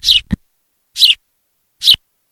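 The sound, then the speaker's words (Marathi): Sparrow chirping in a few short, bright, high-pitched chirps spaced roughly a second apart, each brief burst separated by silence, with no voices. “ए चिवताई, ए चिमणे, तुझं काय जाते वे चिवचिवायला?”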